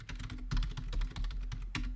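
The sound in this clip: Typing on a computer keyboard while searching online for placebo pills: many quick keystrokes tap out in an uneven, busy rhythm with no pauses of note.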